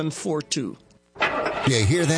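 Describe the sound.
A car engine starts: a burst of cranking and turning-over noise after a voice speaks briefly, then a brief pause.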